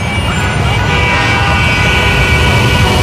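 Car horns honk in a traffic jam over a steady, loud roar of road traffic, with faint sustained horn tones in the noise.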